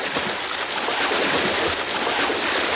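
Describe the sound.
Steady, continuous rushing and washing of water as someone swims through a lake, a dense hiss with no distinct splashes.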